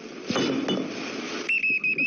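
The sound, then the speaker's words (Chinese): A water bottle thrown in a park lands with two sharp clinking hits, followed by a high tone that repeats in a few short pulses, with no talk. “谁扔的水瓶子？”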